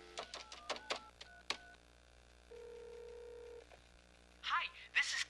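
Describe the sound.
A telephone number is dialed on a speakerphone: a quick run of short touch-tone beeps, then a single steady tone, followed by a voice.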